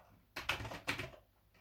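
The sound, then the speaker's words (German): Typing an email address on a computer keyboard: a few quiet key clicks in two short clusters, soft and light. “Hier tippe ich jetzt meine E-Mail-Adresse ein”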